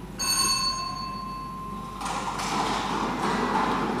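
Lottery draw machine releasing balls: a bright, bell-like ring for about two seconds, then a rumbling, rolling rattle that continues steadily.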